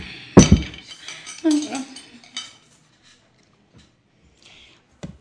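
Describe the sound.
A plate is cleared from the table with a few ringing clinks and clattering scrapes of dishware, then quiet with a couple of faint taps.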